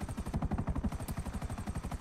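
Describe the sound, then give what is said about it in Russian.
A helicopter flying in a video game gives a rapid, steady rotor chop: even low thumping pulses repeat without a break at a constant rate from start to end. “Но вертолет вроде быстрый, нормально. Быстренько сейчас долетим.”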